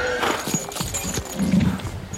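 Horses' hooves clip-clop in an irregular run of many strikes as a ceremonial procession, led by a butchers' guild in armour with horses, sets off through Berlin on a cold January evening in 1757.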